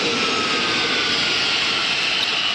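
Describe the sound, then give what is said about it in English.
A spacecraft landing on the moon is rendered as a sound effect: a steady, loud, jet-like engine roar that holds evenly throughout with no pauses and no voices. “Hold on, we're about to come into a landing.”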